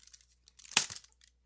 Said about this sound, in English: And then seal that envelope. Uh-huh. Convincing envelope sealing sound effect.